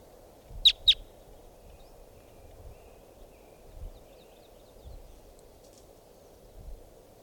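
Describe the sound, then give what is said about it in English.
Wild red crossbills of type 2 give two sharp, high call notes in quick succession early on, then fall silent over a faint low rumble. “That sounds like type 2 birds. Wild. Wild in the sky.”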